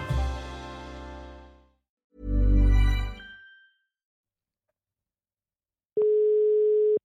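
A telephone ringing tone plays while a call is being placed: one steady, buzzing tone lasting about a second, loud and alone at the end, after earlier bursts of other sound and a pause of silence.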